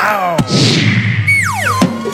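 A comic cartoon kick of a football. A sharp whack opens, a long falling whistle follows, and a second thud lands near the end, all over a steady low hum.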